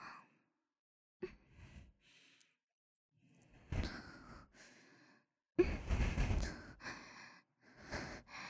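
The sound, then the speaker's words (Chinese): Soft breathing close to the ear, a series of breathy sighs and exhalations separated by stretches of silence, faint and intimate with no speech over them. “是喜欢我的呼吸的热气喷洒在您的耳侧吗？”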